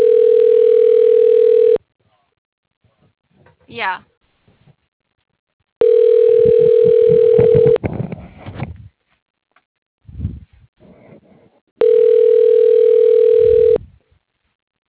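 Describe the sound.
Ringback tone of an outgoing phone call that goes unanswered: three steady, loud two-second rings separated by gaps. A person talks briefly in the pauses between rings.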